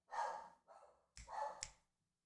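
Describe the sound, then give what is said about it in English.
A dog gives a few faint barks in quick succession, then falls silent. “That's the dog bark. Dog bark. I got a live dog bark.”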